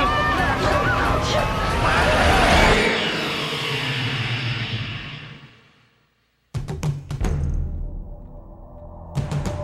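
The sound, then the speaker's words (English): Trailer audio for the 2000 film Final Destination: voices over a swelling, dense soundtrack that fades away into brief silence, then a run of sharp, heavy impacts punches back in. “You've just heard the trailer for Final Destination. This one came out back in 2000.”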